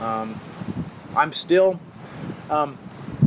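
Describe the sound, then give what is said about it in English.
Outdoor wind buffets the microphone as something burns unevenly, a low rumbling noise that continues beneath a person talking. “I'm kind of surprised that I'm loving it as much as I am, even though the wind is, or whatever, is making it burn all wonky.”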